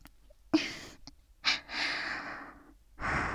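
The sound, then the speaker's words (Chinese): Rapid, heavy breathing comes as a few sharp, hissing inhales and exhales with short gaps between them, one breath drawn out longer than the rest. The breaths are heard alone, with no words. “呼吸真的好急促啊。”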